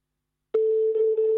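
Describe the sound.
A telephone ringing tone on a French phone line begins abruptly and holds as a single steady, clear mid-pitched tone, heard alone.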